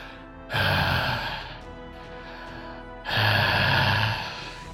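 Heavy, labored breathing from a man who has just guzzled a faintly glowing brew and collapsed onto his hands. Two long, loud, rasping breaths are separated by a short quieter pause.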